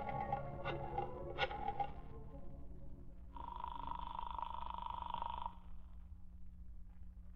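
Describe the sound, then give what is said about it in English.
Telephone being dialed and then ringing: a few brief irregular tones give way to one steady buzzing ring of about two seconds, heard alone. “As soon as Britt Reed arrived at his apartment, he dialed Commissioner Higgins' private number.”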